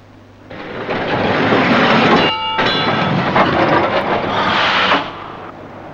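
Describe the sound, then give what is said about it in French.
A metro train starts and runs, its rumbling roar swelling within the first second into a loud, continuous clatter with a brief tonal whine in the middle. The roar drops away shortly before the end. “Le métro en folie va démarrer dans quelques secondes.”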